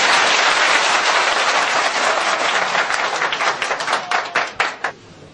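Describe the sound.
Audience applause at a live performance: dense, loud clapping from many hands that thins into scattered individual claps and then dies away.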